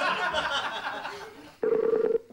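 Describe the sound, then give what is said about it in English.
A telephone tone as a call is placed: a steady, mid-pitched electronic tone with a slight pulse, which starts abruptly after a stretch of talk and runs for about half a second. “We're ringing someone here.”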